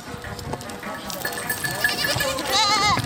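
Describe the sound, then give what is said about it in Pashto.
Goats and sheep bleating in a herder's grazing flock, several wavering overlapping calls that grow louder toward the end, with a man talking. “نو دا مالداری چې دلته ګوري”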